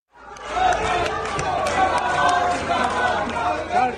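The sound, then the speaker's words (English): A loud, dense crowd in India's Parliament welcomes back opposition leader Rahul Gandhi: a sustained roar of overlapping shouting voices, chatter and cheers that holds steady throughout. “The sound there as India's main opposition leader, Rahul Gandhi, was welcomed back into Parliament, having been reinstated as an MP.”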